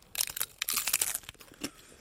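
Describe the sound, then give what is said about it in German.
Crisp crunching as teeth bite into a crunchy taco shell filled with quark: a dense run of brittle cracks and crackles, then a pause and one last crunch. “Meine Taco, meine Muschel ist fertig befüllt. Du beißt rein. Ich beiß rein.”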